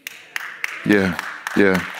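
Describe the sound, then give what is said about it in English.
Weak, scattered clapping from a church audience: a few sparse, sharp claps that never build into applause, mixed with a speaking voice. “That was a weak clap because some of you all might still be on the fence.”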